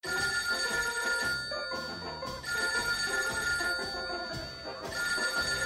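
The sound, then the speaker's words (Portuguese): A telephone rings as a call comes in, a bright tonal ringtone repeating in fairly loud bursts with brief dips between them. “Vamos atender a mais uma ligação no programa do Bingo.”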